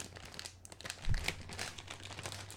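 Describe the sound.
Crinkling and rustling of a Siete churro strips snack bag being opened, a continuous crackly texture with a louder burst of crunching midway, no voices.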